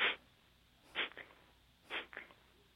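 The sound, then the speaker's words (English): Breath is blown out through the nostrils in small stepped puffs during a breathing exercise: three short, sharp nasal bursts, evenly spaced about a second apart, each trailed by a quick smaller puff. “and then little steps down through the nostrils, blowing the breath out.”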